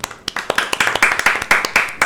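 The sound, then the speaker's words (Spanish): Applause for a school radio program's award: many quick hand claps that start sparse and thicken into a steady, lively patter. “un enorme y maravilloso aplauso y felicitaciones.”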